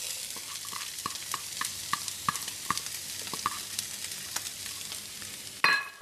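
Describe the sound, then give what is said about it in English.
Chinese sausage and mushrooms fry in a pan, a steady hiss of sizzling broken by many small stirring ticks, with a sudden louder sizzle burst near the end. “I'm just putting the lap cheong in first because it needs a bit of a longer cooking time than the other two. Okay, the lap cheong is cooking. I'm going to add in the mushrooms.”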